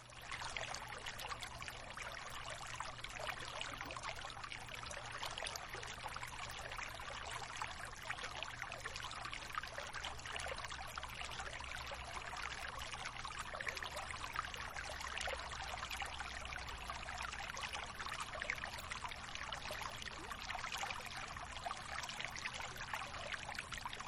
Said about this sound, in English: Just keep returning attention to the sound of the water.